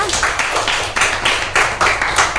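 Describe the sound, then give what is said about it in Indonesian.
Children clap their hands together in loud, regular bursts, keeping a steady, even beat throughout without talk. “Tepuk tangan dong untuk Tama.”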